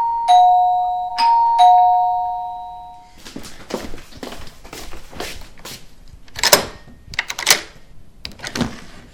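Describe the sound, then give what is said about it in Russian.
A doorbell rings with three bright, ringing chime tones that overlap and slowly fade. Irregular clicking and clattering follow. “Пока ты стучишься, мы позвоним в звонок.”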